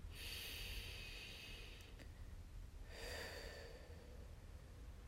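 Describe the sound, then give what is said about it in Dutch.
Slow, deep breathing during a guided meditation: two long, airy, hissing breaths, quiet and alone with no talking. “En je ademt een paar keer diep in en uit.”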